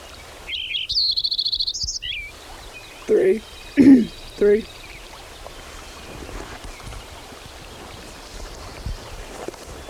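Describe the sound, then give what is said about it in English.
A Lincoln's sparrow sings one high, buzzy, trilling phrase of about two seconds, followed by a few short spoken words, with a soft steady background hiss throughout. “Lincoln Sparrow number 10 continued.”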